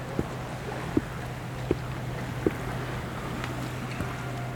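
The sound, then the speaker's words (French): Seaside ambience on the Estérel coast road between sea and mountains: a soft, steady wash of wind and water over a constant low hum, with a few faint, evenly spaced knocks. “Balade sonore entre la mer et la montagne.”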